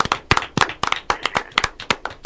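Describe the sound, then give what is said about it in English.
Scattered applause from a small open mic poetry audience, with a few hands clapping loosely and unevenly. The claps are sharp and separate, with gaps between them rather than a dense roar. “And a hearty round of applause from the World Poetry Open Mic singers.”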